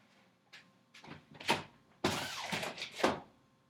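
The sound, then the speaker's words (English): A window being opened: a few faint knocks and clicks, then a louder scraping slide with several thumps, heard alone with no talk. “1 second, I want to open a fucking window. Because I'm hot.”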